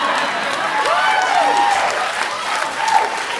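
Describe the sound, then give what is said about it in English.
An audience applauding during a talk, with dense, steady clapping that holds loud throughout. A voice is faintly audible over the applause. “I don't know why you're clapping.”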